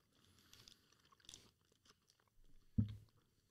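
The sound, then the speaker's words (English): Faint chewing of a bite-sized cocoa peanut butter snack bar made with dates: soft, quiet crunches and mouth sounds, with one louder bite near the end. “Taste test live. Yeah. I can tell there's cocoa in this now.”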